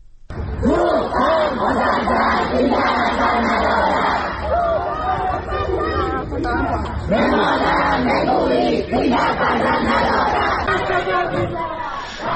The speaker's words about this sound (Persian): این صدای اعتراض دانشجویان دانشگاه علامه طباطبایی در تهران است.